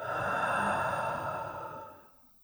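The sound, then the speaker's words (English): A deep breath drawn in through the nose and let out through the mouth, a single soft breathy rush that holds steady and then fades away over roughly two seconds. “Let's take a big breath in through your nose and out through your mouth.”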